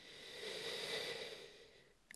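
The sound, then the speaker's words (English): One slow, deep breath is drawn during a guided meditation. It is a soft, faint rush of air that swells and then fades, with no talking over it. “now just keep breathing in and out, a deep breath in”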